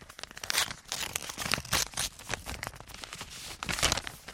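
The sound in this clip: An envelope is torn open in front of a microphone: a continuous run of crisp paper tearing, crinkling and rustling bursts, fairly loud throughout, with no talk.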